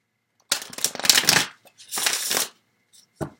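Tarot cards being shuffled and drawn: two crisp, fluttering riffle bursts separated by a short gap, then quiet, and finally one short sharp snap.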